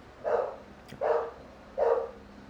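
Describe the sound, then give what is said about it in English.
Three dog barks, evenly spaced and fairly faint, each a short mid-pitched burst with nothing else between them. “Ang ingay ng dog. Naririnig niyo ba yun? Ang ingay ng dog.”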